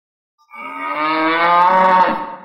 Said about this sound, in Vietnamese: Tiếng trâu gầm phát ra chấn động trời đất, hư không đổ nát.